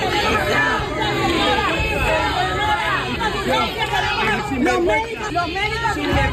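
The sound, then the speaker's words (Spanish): Health workers booing Spain's health minister as she arrives in Ceuta: a loud, continuous crowd din of many raised and jeering voices that keeps up for the whole stretch. “A su llegada para reunirse con el presidente ceutí, la esperaban algunos profesionales sanitarios entre abucheos.”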